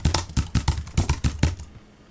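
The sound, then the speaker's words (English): Typing on a computer keyboard: a quick, irregular run of sharp key clatters that lasts about a second and a half, then stops. “Okay, Mossad. Jesus, I can't even type.”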